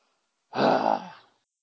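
A man gives one drawn-out, breathy groan of about a second. It starts loud and voiced, then fades gradually into silence.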